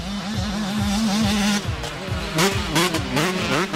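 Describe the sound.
Motocross motorcycles race at a championship, their engines revving with rising and falling pitch as several machines overlap in a loud, continuous roar, with no talk.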